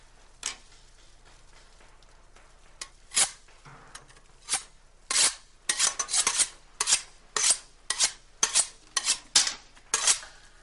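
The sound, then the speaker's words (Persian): Ingredients being chopped fine with a knife for qeymeh stew: crisp, sharp strikes land at irregular times, with a few spread out at first and then a faster run of many cuts. “ریز خوردشون کن واسه قیمه شبه.”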